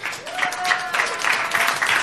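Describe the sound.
An audience applauds loudly to welcome a singer-songwriter guest, with dense, continuous clapping throughout and voices faintly audible under it.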